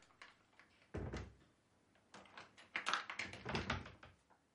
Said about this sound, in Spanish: atraviesa el pasillo y cierra la puerta del dormitorio con llave.